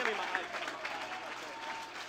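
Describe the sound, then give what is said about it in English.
Church audience clapping hands in praise, a faint, steady patter of clapping under voices. “Why don't you clap your hands? Why don't you praise the Lord? Why don't you give the Lord a shout?”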